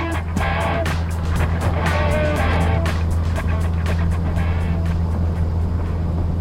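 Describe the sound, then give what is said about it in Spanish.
Engine drone of an airplane in flight, a steady low hum with crackling, rattling bursts scattered over it, holding at an even, fairly loud level throughout. “Nuestros intrépidos héroes atraviesan los cielos con un avión de dudosa procedencia.”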